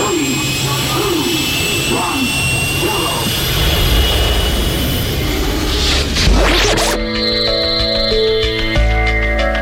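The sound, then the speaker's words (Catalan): Whooshing, jet-like roar of a spaceship taking off as a sound effect, steady under a talking voice. It swells into a sweeping surge, then gives way to sustained musical tones. “Som a punt d'enlairar-nos amb la nau l'Afell Luna.”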